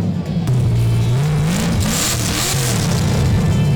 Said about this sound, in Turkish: Şu anda boşta gaza basıyorum. O çıkan sesi sizler de duyuyorsunuz.